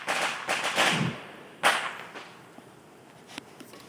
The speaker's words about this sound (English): But just in case you're not hearing any fireworks where you are, or